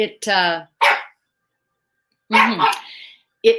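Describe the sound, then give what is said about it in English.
A pug puppy barks in a few sharp, high-pitched bursts with excited yips. There is a short pause before more barking. “I'm sorry, can you hear my pug barking?”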